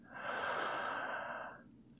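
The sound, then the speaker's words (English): A single slow inhaled breath during a guided breathing exercise, a soft, steady airy hiss that swells in and holds for about one and a half seconds before fading, faint and alone. “Exhale, one, two, three. Inhale on one”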